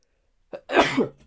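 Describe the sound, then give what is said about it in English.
An attempted sneeze: a brief sharp catch of breath, then one breathy, forceful burst that trails off. It is heard alone, with no talking. “so I'm just trying to sneeze.”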